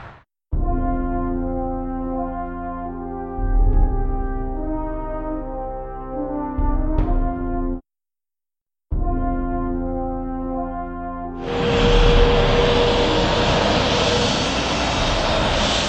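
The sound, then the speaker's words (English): Aircraft engines drone with steady humming tones at Exeter International Airport as flights come and go. After a short break a louder, broader roar sets in and holds. “Well, here I am at Exeter International Airport. It's one of the busier regional airports, lots of flights coming in and out of here”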